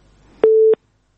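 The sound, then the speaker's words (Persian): A phone line's busy tone sounds after a listener's call into a radio call-in show is cut off: one steady, mid-pitched beep lasting about a third of a second, loud and alone after faint background noise. “بلی خب، تماس شنوندی ما قطع شد.”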